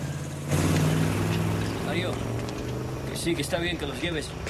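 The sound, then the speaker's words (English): A truck engine rumbles as it drives away from the front gates of a meatpacking plant, a continuous low drone with a throaty tone, and voices come in over it near the end. “The truck stops at the front gates. Get out. They climb out of the back and the supervisor drives away.”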